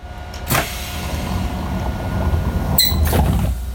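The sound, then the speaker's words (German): A compressed-air door on an older VT2E railcar opens and then closes, with a sharp pneumatic hiss burst near the start and another near the end over a steady low rumble. “Der VT2E arbeitet sehr viel mit Druckluft. Das ist bei älteren Eisenbahnfahrzeugen durchaus so üblich. Wir machen die Tür auf und wieder zu.”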